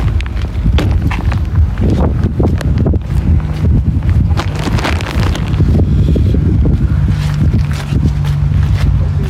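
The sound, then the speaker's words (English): Wind blowing outdoors on a grey day of about five degrees, a loud, steady, rough rush and low buffeting that fills the whole clip with no talk. “bit of wind, bit of grayness.”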